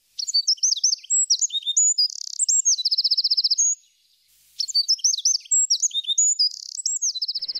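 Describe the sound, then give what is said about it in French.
Eurasian wren song: two loud, rapid bursts of high, sharp notes with fast trills, separated by a short pause, heard alone with no voices. “Certains petits passereaux ont des chants très puissants, je pense aux troglodytes mignons.”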